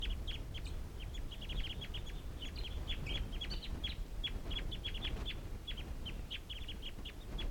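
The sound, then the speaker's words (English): Wild birds calling in a flock about to take off: many short, high chirps in quick, irregular bursts, faint over a steady low background noise. “And these are the wild birds calling. And it looks like they're gonna take off.”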